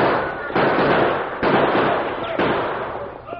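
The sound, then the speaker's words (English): Three sharp gunshots crack out as a sheriff's posse and outlaws exchange fire in a western shootout. Each loud report is followed by a long, rumbling decay over continuous noise. “Hey, they're firing at us. Give them some lead, men.”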